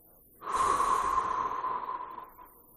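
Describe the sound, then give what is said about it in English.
A long, steady breath taken during a guided breathing exercise, in through the nose and out through the mouth: one airy, sustained rush lasting about two seconds, fairly loud and heard alone without talk. “First, take a breath in through your nose and out through your mouth.”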